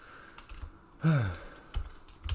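Sparse key clicks on a computer keyboard during quick editing: a few separated taps with short pauses between them, moderately quiet.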